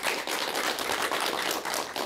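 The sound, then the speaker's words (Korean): An audience at a Korean talk session claps, giving brisk, continuous clapping with a loose pulse. It holds at a moderate, even level and no one speaks. “여러분 박수 부탁드릴게요.”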